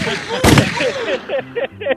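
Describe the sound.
A gunshot sound effect, billed as a double shot, bursts out sharply near the start, followed by short voice-like sounds.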